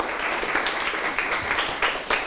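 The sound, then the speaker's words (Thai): Students applaud a classmate in a classroom: a steady patter of many hands clapping together, moderately loud and continuous throughout, with no talking over it. “ปรบมือเพื่อนหน่อยครับ”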